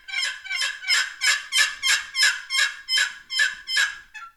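Turkey yelps made on a turkey call, a steady, rhythmic run of around a dozen raspy, high-pitched notes, evenly spaced and heard alone.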